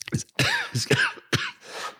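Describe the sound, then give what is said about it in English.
Someone coughs in several short, rough bursts in quick succession, fairly quiet and with no talking around them. “Excuse me, I'm coughing here.”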